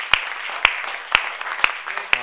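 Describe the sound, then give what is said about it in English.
An audience clapping in praise during a church service, with five sharp, evenly spaced claps about half a second apart over a low, steady background. “We can give him a hand clap of praise.”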